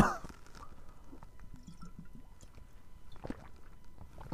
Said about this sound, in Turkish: Su içmem lazım.